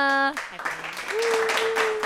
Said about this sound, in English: I love the applauses we're adding.